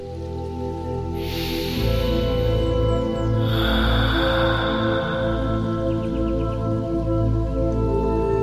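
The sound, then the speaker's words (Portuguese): Slow, deep breathing with two long, airy breaths, each swelling and fading, over a soft sustained musical background. “Respira um pouquinho.”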